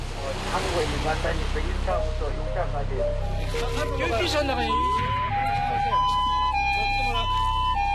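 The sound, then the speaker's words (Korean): An ambulance siren wails at the seaside, alternating tones that emerge and grow clearer in the second half over a continuous rumble and voices. “바닷가에 울리는 앰뷸런스 소리. 신고를 받고 출동한 구급대원들입니다.”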